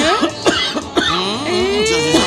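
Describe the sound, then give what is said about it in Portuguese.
A man coughs a few times in sharp, harsh bursts, mixed with strained, throaty voiced sounds between them. “Se queres tossir, vai para longe do meu filho.”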